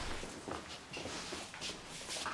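Faint footsteps of people walking, soft scuffing steps landing irregularly amid low background noise, with a light shuffling texture between them.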